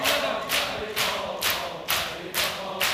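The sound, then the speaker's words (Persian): Crowd clapping in unison to a sung lament, with sharp, bright group claps landing on a steady beat about every half second and a faint murmur between them. “صدای کف زدن داره میاد صدای کف زدن داره میاد”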